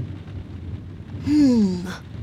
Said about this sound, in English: It's raining.